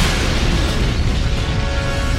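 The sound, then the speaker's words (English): A massive explosion as the Starkiller base cooling device is destroyed, a dense, continuous roaring rumble heavy in the lows that stays loud and unbroken throughout. “They felt the planet rock beneath their feet as Poe fired on the weakened cooling device, destroying it once and for all.”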